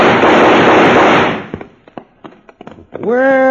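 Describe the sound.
Several gunshots fired over people's heads in a Western scene: sharp, irregularly spaced cracks that follow a loud rushing burst of noise.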